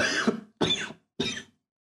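Three harsh, heavy coughs from a person who has a virus and is wearing a disposable mask. Each is a short burst, separated by brief pauses, with silence after the last one.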